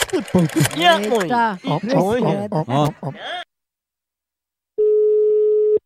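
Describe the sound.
An outgoing phone call's ringing tone: after people talk, a pause, then one steady, even tone lasting about a second, heard alone.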